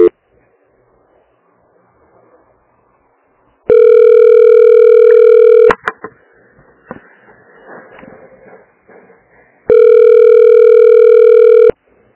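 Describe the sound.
Telephone line tone during a call transfer: two long, steady electronic beeps of about two seconds each, separated by faint line noise and small clicks.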